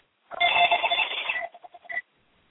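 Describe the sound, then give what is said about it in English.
A landline telephone rings: a long, bright ringing burst, then a few short, clipped pulses of the bell before it stops. No talking is heard. “Somebody got a phone ringing back there.”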